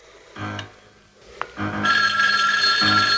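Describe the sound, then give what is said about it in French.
An outgoing telephone call rings through the handset in a few separate bursts with short gaps between them. The later ring is brighter and sustained, with a brief click in between. “je vais téléphoner à Laurie”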